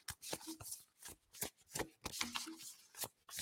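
Tarot cards shuffled and drawn from the deck: many quick, papery riffles and slaps arrive in irregular bursts, fairly faint, with short pauses between handfuls.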